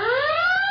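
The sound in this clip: A smart toilet monitor sounds a single continuous electronic alarm tone, loud and alone, gliding slowly upward in pitch for under a second.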